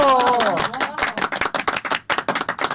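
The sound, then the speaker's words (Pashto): Audience clapping for a poet called to the stage at a poetry gathering: a brief voice at the start, then many sharp, separate hand claps in a quick, uneven patter that thins out slightly toward the end. “اوس هم سټیج ته رابولو چلمیار بوغی صاحب په ویاړې یو چکچک.”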